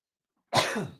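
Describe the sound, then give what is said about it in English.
One short, harsh cough comes from a person with allergy-induced asthma. It follows silence and is a single burst that fades quickly. “I'm trying not to cough in your all's ear, I promise. Allergy-induced asthma.”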